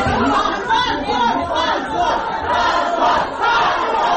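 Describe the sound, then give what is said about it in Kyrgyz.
Uproar of people gathered in a courtroom as a court verdict is read, with many raised voices shouting and clamoring at once, loud and unbroken throughout. “Соттор коллегиясынын чечими залдагы чогулгандардын ызы чуусу менен коштолгондуктан судья Ирина Воронцова кесиптешине чечимди гана окууну табыштады.”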